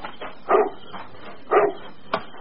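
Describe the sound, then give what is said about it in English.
A dog barking outside at night near a house, two loud, spaced barks about a second apart followed by a shorter yip, with a low steady background hum and no talk. “Now, what are you barking at? There's nothing out there in the dark, stupid dog.”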